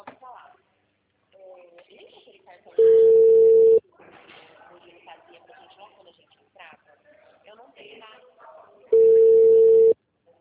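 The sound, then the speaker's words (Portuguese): The ringing tone of an outgoing phone call to a client plays as two loud, steady beeps of about one second each, roughly six seconds apart, with people talking in between. “eu só tô ligando pra uma cliente”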